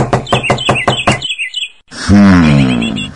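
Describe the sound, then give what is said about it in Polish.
Knocking on the front door of a house: a rapid series of loud, hard knocks, then a short pause and a loud, sustained harmonic tone. “To więc bądźmy kulturalni i zapukajmy. Na pewno jest w domu.”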